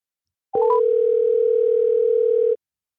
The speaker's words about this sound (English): We got another caller coming, so I'm going to call him right now and see how he's feeling.